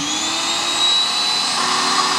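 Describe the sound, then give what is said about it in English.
A power washer runs in a steady, loud hiss with a high motor whine layered on top, holding constant for the whole two seconds without pauses or voices. “She cuts the power washer on and lets it rip.”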